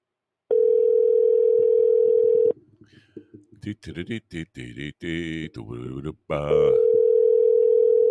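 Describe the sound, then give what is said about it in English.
Telephone ringback tone while waiting for a call to be answered: a steady mid-pitched tone lasting about two seconds, a pause in which someone talks, then the tone sounds again. “Oh, come on, answer the phone.”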